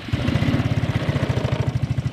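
A quad bike engine running at a steady low throb, with rapid even pulses and no voices.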